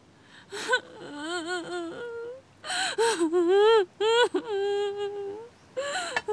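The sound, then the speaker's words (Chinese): A person cries and sobs in a few bursts of high, drawn-out wailing broken by short gasps and pauses. The voice is loud and strained, with no clear words. “别哭了，你还哭啊？”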